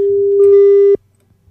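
Telephone line tone while a call is placed: one steady, loud, mid-pitched tone that holds for just under a second, then cuts off into silence.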